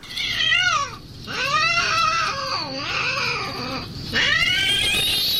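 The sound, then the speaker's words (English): A cat in heat yowls in long, loud, wavering wails, rising and falling in pitch. Several drawn-out cries follow one another with short breaks between them. “See, I hear fighting. This is what I think of as fighting with cats, like my three cats. Yeah, because they like hiss, but you're thinking a cat in heat.”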